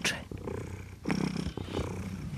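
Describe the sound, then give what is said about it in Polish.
A heavy cat purrs while being held at an animal rescue foundation, a loud, steady rumbling purr running through the whole clip with a few brief breathy bursts. “Jak on mruczy.”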